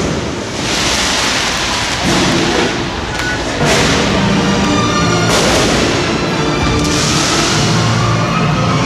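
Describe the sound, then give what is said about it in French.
Fireworks explode in a shopping gallery during the launch of the Christmas lights, a loud, dense rumble of booms with a few sharper bursts standing out through the roar. “C'est extraordinaire ce qu'on voit là. Il y a un feu d'artifice, du feu de Dieu.”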